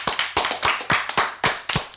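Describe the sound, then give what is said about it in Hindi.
An audience claps for a correct answer to a riddle, a rhythmic series of sharp claps struck together in a steady beat, each one crisp and fairly loud. “तालियां हो जाएं।”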